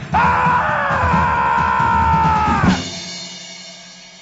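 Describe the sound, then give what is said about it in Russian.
A man screams as he leaps from a ship's yardarm into the sea: one loud, sustained cry held at a steady high pitch for nearly three seconds, then cut off abruptly into a fading noisy tail. “подогнул колени и с воплем кинулся в море”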